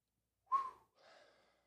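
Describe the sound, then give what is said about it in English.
Heavy breathing from someone out of breath and trying to recover: a sharp, slightly whistling gasp followed after a short gap by a softer, longer exhale, heard alone. “Sorry, I'm out of breath again. Hold on, give me 1 second. I got to catch my breath here.”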